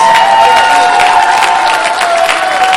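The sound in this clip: Audience applause for a cast of actors, a dense, steady wash of clapping with crowd noise that holds loud and even for the whole span without a break.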